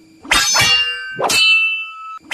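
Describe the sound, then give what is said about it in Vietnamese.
Swords and weapons clashing in a fight, a few sharp metallic clangs that each ring on with bright sustained tones before the next strike lands. “Bỗng nhiên, ở góc phía bắc, loáng thoáng nghe có tiếng binh đao giao đấu truyền lại.”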